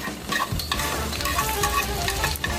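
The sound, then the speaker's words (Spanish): Onion, garlic, chilies and tomatoes sizzle while frying in hot oil, a dense continuous crackle with scraping stirring sounds throughout. “Calienta el aceite y sofríe la cebolla, los ajos, los chiles y los jitomates.”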